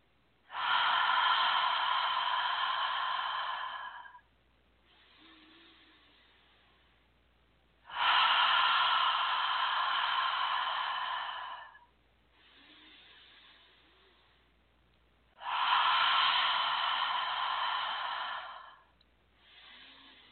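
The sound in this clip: Deep guided breathing: three long, loud breaths, each followed by a softer, airy breath, in a slow, steady rhythm with a faint low hum beneath.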